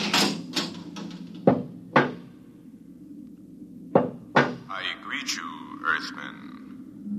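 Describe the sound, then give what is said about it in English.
A lock being opened on a door gives a few sharp, loud clicks and clunks in two bursts, with quieter breathy voices underneath and rising after the later clicks. “I think they're opening the lock.”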